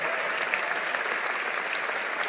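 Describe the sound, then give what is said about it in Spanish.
Steady applause from a church audience praising God during a sermon, a dense, continuous patter of many hands clapping at even loudness throughout, with no voices standing out. “Vamos, si lo crees, dale un aplauso al Señor.”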